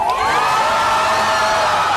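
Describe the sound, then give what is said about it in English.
A crowd in Tel Aviv cheers loudly as Hamas releases three Israeli hostages, a continuous roar of voices with whoops and shouts layered through it. “Cheers erupted in Tel Aviv as Hamas released 3 more Israeli hostages.”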